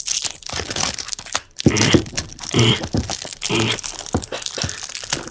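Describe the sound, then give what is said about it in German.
Plastic film is torn and peeled off a boxed game during an unboxing. Loud, irregular crinkling and crackling comes in several crunchy surges with short pauses, and no one talks. “Ich hasse Folien. Ja, ihr könnt gerade auch sehen, er packt eine Folie auf.”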